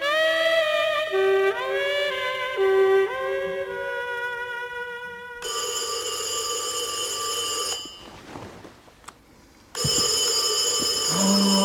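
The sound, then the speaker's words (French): A telephone rings loudly and brightly in long sustained bursts with brief gaps. Before it, a passage of gliding, melodic electronic tones plays, and no voices are heard. “Ce téléphone. On ne peut jamais être tranquille tous les deux.”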